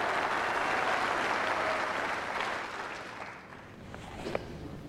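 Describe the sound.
Audience applause welcomes a guest at the National Theatre: dense, steady clapping from a large crowd that gradually thins and softens toward the end.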